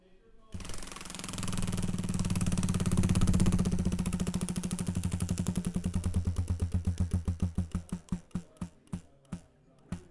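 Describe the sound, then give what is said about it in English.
A prize wheel spins with rapid, dense ratcheting clicks that gradually spread out and slow into separate ticks before it comes to a stop. “So, Studio Demand, let's spin that wheel.”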